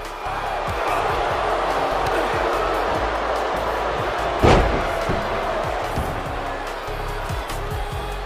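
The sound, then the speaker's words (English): A single heavy power-slam impact from a wrestling video game, WWE 2K23, lands as one loud, sharp thud midway through, over a steady, continuous crowd roar. “Oh, and what a power slam by Scott Steiner.”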